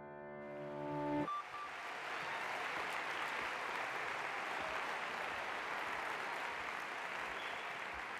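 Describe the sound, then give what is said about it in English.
Sustained applause from a large audience at the Long Center in Austin welcomes Barack Obama at South by Southwest 2016; a brief tonal sound opens, then dense, loud clapping continues steadily to the end. “Ja, alltså nu applåderar de ju ganska länge här”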